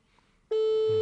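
A phone ringing tone sounds while a caller tries to reach their mother. A single steady, clear electronic tone starts halfway through and holds at an even loudness to the end.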